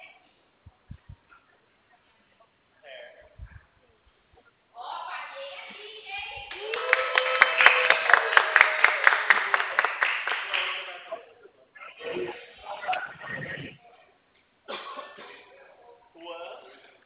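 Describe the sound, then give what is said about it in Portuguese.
Hand clapping at a home where sellers clap to announce themselves: a few sharp claps come first, followed by voices talking. “Desculpa o barulho, tá bom? Quando a gente vende aqui, a gente bate palma.”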